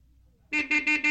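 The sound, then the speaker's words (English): Car horn honks from a big car in a garage: four short, loud tonal blasts in quick, even succession, following a brief quiet stretch. “This is a car. This car is big. This car is in the garage.”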